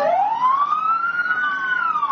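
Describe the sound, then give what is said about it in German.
Fire engine sirens wail in Tianjin, China, during mourning after an explosion: a single loud siren tone climbs steadily, peaks, then eases down slightly, with no voices. “Feuerwehrautos lassen ihre Sirenen aufheulen.”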